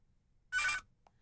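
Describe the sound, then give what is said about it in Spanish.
A telephone rings for an incoming call: a single short, bright electronic ring burst, heard alone against near silence. “Entra la llamada.”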